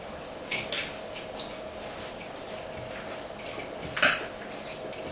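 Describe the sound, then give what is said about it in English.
Faint clinks of a fork and spoon mixing spiced food, a few brief scrapes and taps over a steady soft background hiss, with one clearer clink near the end. “now please don't use your hand anymore. You can use a fork and spoon to mix it, hey?”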